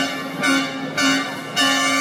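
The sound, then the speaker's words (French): A powerful trade-union air horn mounted on a small truck with a large air or gas tank beneath, sounding at a street demonstration: three loud, steady-pitched, brassy blasts with short gaps between them. “Alors ça, c'est une nouvelle, un nouveau klaxon de la CGT. Qui est trimballé par un petit camion avec”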